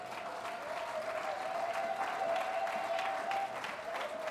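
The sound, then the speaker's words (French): An audience claps steadily in acclaim of the Lord during a church service. The applause is dense and even, with a held tonal note running beneath the clapping. “Quelqu'un dit Amen. On acclame le Seigneur.”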